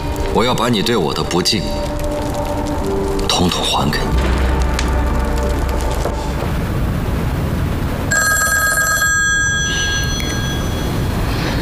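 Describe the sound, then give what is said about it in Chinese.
A telephone rings in a tense dramatic scene, its electronic ringtone coming in a few short bursts over loud, dense background noise and rumble, with voices talking around it. “我接一下电话。”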